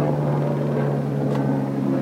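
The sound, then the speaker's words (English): A plane flying overhead makes a steady, low droning rumble with a constant hum underneath. It holds evenly through the whole clip, with no voices. “What is it though? That's a plane.”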